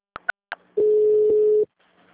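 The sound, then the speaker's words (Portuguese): Telephone keypad DTMF tones dial an extension on a company's automated phone menu: three quick, separate key beeps, then one longer steady tone lasting under a second, clear and alone. “Disque o ramal desejado, ou digite 1, para falar com um de nossos atendentes no Alô Tobeca”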